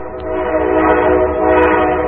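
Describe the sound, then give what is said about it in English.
A passing train gives a loud, continuous rumble with a droning tonal hum that holds steady throughout, without breaks or voices. “And I like the trains that come by. I've been making recordings of trains and incorporating some field recordings into compositions.”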